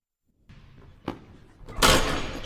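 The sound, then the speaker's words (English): Basketball slam dunk: a soft impact, then a sharp thud, then a loud burst of broad noise that carries on to the end. “Like, out of context, give us that slam dunk.”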